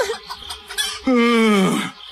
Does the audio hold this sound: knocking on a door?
no